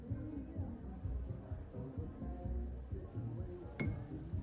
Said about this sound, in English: She taps her glass once